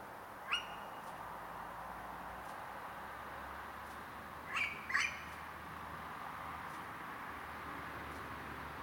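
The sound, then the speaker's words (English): A female owl calls in a garden with a short sharp call near the start. After a long pause come two quick louder calls close together, all over a steady faint hiss. “How lucky you are. You've got owls in your garden.”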